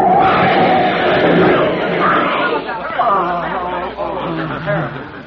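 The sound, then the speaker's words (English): Crowd chatter on a busy city street on Easter Sunday in a radio drama: many voices overlap in a loud, continuous babble with no single voice standing out. “My, it's crowded, isn't it?”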